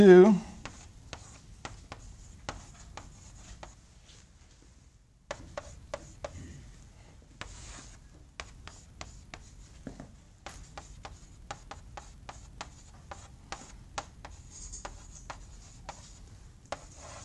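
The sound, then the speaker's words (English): A matrix equation is written out by hand, producing many short, scratchy strokes that come in quick bursts, with a brief pause partway through. “So let's write out k minus omega squared m first, maybe.”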